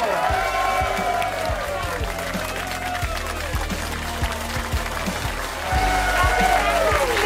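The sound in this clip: Audience applause for a comedian at the close of a set, dense and steady throughout, mixed with tonal sound and voices.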